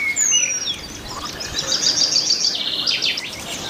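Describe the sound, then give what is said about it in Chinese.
Penduline tits chirp at a beaver pond, giving high, thin calls and short trilling runs that repeat over a steady natural background, without voices. “河狸池塘中的昆虫群为许多鸟类提供了丰富的食物，食物如此丰富，以至于潘雀也搬了过来，开始建造精巧而复杂的鸟巢。”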